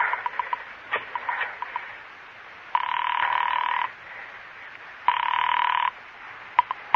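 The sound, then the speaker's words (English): A telephone is dialled with a few light clicks, then rings twice in long, loud, steady electric bursts separated by a quiet gap, with no voices. “Pick up the phone and dial a number.”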